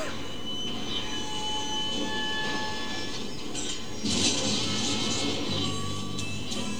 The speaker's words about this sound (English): Oh dear, the locomotive. We're being held up! I knew we shouldn't have stepped away from them steam locomotives.